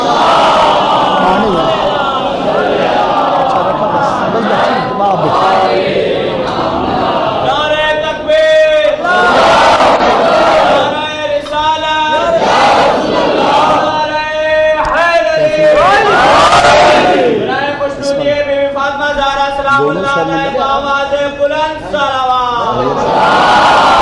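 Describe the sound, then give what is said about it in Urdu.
A large crowd shouts a religious slogan chant in unison at a sermon, loud massed voices rising and falling in repeated surges for the whole stretch, with no pause between the shouted waves. “پوری طاقت کے ساتھ علی کا نام فضا میں معطر کرے نعرہ حیدری”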